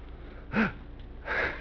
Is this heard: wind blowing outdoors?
no